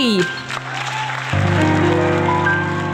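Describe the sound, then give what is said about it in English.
A studio audience applauds the MC of an improvised musical show: dense, steady clapping, with sustained musical tones joining in about halfway through. “Ladies and gentlemen, welcome to Impromptunes, the completely improvised musical podcast. Please give it up for your MC!”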